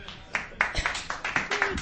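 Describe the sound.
A small gathering of radio station colleagues gives a round of applause, faint and loose, with a handful of scattered claps spreading into light, uneven clapping.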